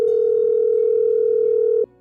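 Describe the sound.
A steady telephone tone during an early morning call placed at 5:30 a.m., a single unbroken mid-pitched hum that holds evenly and then cuts off abruptly near the end.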